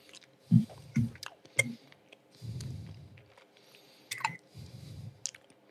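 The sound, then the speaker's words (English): Someone chews sour candies in lemon, watermelon and black cherry flavours, producing wet, squishy mouth sounds and sharp clicks in irregular bursts, fairly quiet throughout. “I got a lemon, watermelon, and black cherry. Let's go. All right. Here we go. Down the hatch.”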